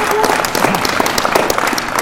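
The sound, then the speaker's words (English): Audience applause for a panel at the close of an evening meeting: loud, dense clapping sustained evenly throughout, with no break or voices standing out. “In closing, can we show a round of applause for our panel tonight?”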